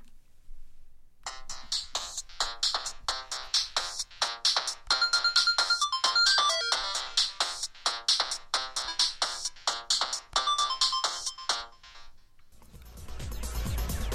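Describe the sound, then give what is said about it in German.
Synthesizer music from a Korg DS-10 running on a Nintendo DS, playing a demo session: a bright, beeping sequenced pattern on a steady rhythmic pulse with many short notes. It stops abruptly and gives way to a brief burst of noise. “Am besten hört ihr mal kurz rein in meine kleine Kostprobe einer Demo-Session direkt aus dem Nintendo DS.”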